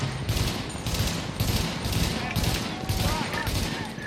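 Gunfire in a shooter video game: dense, crackling rapid-fire bursts roll on continuously at a steady, loud level, layered shots overlapping with no quiet gaps.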